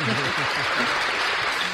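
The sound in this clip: Canned applause sound effect played in a studio, a short burst of dense clapping with a voice talking over it.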